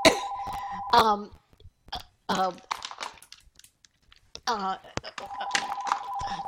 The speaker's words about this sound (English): So, if that's for me, I'm not there. I'm not here. I can't get this phone off.